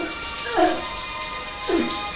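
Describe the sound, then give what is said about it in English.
A shower runs behind a steamy glass panel, giving a continuous watery hiss with two brief swells. “Behind a steamy glass panel, Alice takes a shower.”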